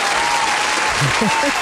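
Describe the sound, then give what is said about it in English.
Steady, dense applause fills the whole moment at an even loudness, with a voice briefly coming through near the end. “I feel like I need to do my applause. Let's do the applause.”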